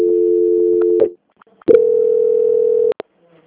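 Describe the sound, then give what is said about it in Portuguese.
Telephone tones during a call transfer: two long, steady electronic beeps at a constant pitch, separated by a short silence, loud and clean with nothing else over them. “Transferência.”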